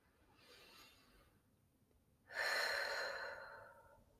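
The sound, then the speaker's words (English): Slow, deep breathing comes as two soft, airy breaths, the first quieter and shorter, the second louder and longer, separated by a brief quiet gap. “I'll take some slow breaths.”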